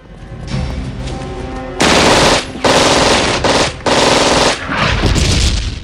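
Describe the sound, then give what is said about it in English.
Guards' guns firing at a man near a building compound: loud, rapid automatic gunfire in several sustained bursts separated by brief gaps, dense and crackling throughout. “The guards shoot at him.”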